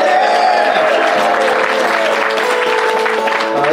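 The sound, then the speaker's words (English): Audience applause for a performer at a comedy stage show, loud and sustained, with dense clapping and some crowd noise throughout. “Will you please welcome Christian Riley, ladies and gentlemen? Give him a round.”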